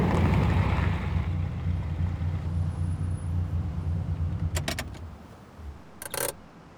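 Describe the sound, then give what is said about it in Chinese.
A car driving on a road once the traffic has cleared, a steady low rumble throughout with a couple of brief rattling bursts near the end. “先开车吧，已经不堵了。”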